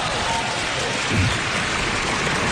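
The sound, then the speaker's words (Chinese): Audience applause at a stage comedy performance, a steady hissing patter of many hands clapping at even loudness throughout. “哎，你这掌声不热烈。”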